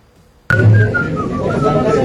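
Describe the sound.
A female admirer whistles a romantic song tune at a crowded live event, a clear, bright melody stepping between sustained notes, loud and starting abruptly, over a thick bed of crowd noise and voices.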